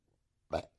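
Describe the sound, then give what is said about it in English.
A single short, guttural burp offered as a Christmas burp, one brief loud throaty burst after near silence. “Christmas burp for you.”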